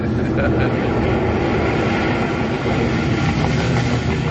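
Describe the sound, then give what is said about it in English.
An airliner rolls along the runway after landing in London, a dense, steady engine roar and rumble that stays loud and level throughout. “There we are, on the ground again, pulling right up the runway. In a moment, you can loosen your seatbelts.”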